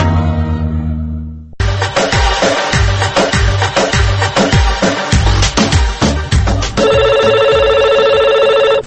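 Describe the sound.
A telephone rings on a call-in line with a loud, rhythmic electronic ring of repeated pulses, ending in steady sustained tones.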